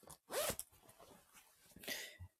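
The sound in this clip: Jacket zipper being pulled open as the jacket is taken off: two quick rasping bursts, fairly faint, with soft fabric rustling between them.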